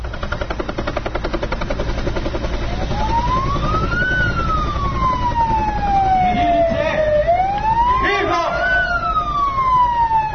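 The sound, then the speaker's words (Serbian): A police siren wails at a police day demonstration, its tone rising, slowly sliding down, then rising again. Beneath it runs the constant rapid thumping of a helicopter rotor, and the whole stays loud throughout. “Policijske sirene, helikopteri i gotovo akrobatske intervencije pripadnika Ministarstva unutrašnjih poslova oduševile su malu, ali i veliku decu koja su došla u Makiš.”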